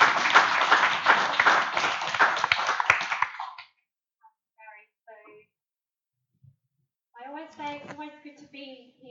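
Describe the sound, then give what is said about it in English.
Audience applause welcomes a pastor to the front at a church service: dense, loud clapping for about three seconds that stops abruptly, followed by quiet gaps and brief talk. “would you all just give Pastor Emma a hand and welcome her”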